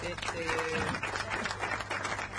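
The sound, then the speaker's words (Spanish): Applause from a group of people, a busy crackling clatter of hands that runs throughout, mixed with overlapping voices talking and calling out. “Necesitamos aplauso para Natalutti.”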